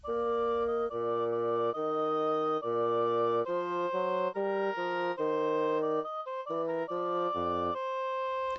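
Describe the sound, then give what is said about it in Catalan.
Computer-generated, simplified rendition of a Haydn theme with only its accompanying bass line: clean synthetic tones play a steady melody of sustained notes above a lower moving bass part, with no other instruments. “Primer, una versió simplificada on només hi ha el tema original i el baix que l'acompanya. Sona així.”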